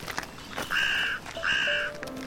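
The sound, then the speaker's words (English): Carrion crows cawing in woodland: two loud, drawn-out harsh caws in quick succession, preceded by fainter shorter calls. “I heard some crows in the background a short time ago. The carrion crows have quite a substantial population here. And they're very noisy.”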